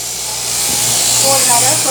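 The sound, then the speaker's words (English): Electric shears clipping a sheep's dry wool, a fleece grown for a full year instead of the usual six months: a steady motorized buzz that slightly swells partway through, with people talking over it. “And they stay in because we want their wool dry. You can't shear them when they are wet. So, all right. Next step, shearing.”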